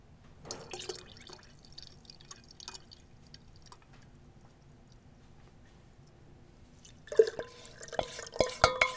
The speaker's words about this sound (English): So here comes the blueberry simple syrup.